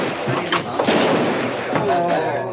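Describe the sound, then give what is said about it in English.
Gunshots ring out during a shootout in a western saloon scene, a few sharp bangs mixed with voices, moderately loud over a busy background. “It becomes a lot of shooting.”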